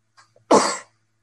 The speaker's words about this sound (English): Sorry, guys, that was a sneeze.